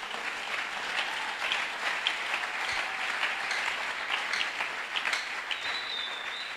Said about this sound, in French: On peut acclamer, pourquoi pas.